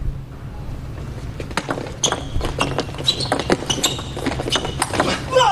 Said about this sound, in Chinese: 比赛继续，袁立岑来发球